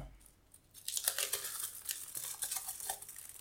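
Crinkling and tearing as two chocolate bars are halved and dropped into a cooking pot for melting. Faint, irregular rustles and small crunches come in quick bursts, with no talk.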